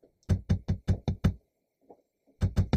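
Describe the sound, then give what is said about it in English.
Sharp tapping knocks in a bedroom with an open window. A quick run of six even raps comes first, then a pause with a couple of faint soft sounds, and three more raps begin at the end. “The tapping grew louder”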